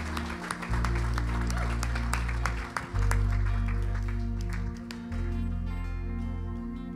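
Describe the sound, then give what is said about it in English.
Applause fills a church as the audience welcomes a guest speaker on a Sunday morning, with steady crowd clapping over low, sustained tones that thins toward the end. “And so why don't you put your hands together and welcome him this morning.”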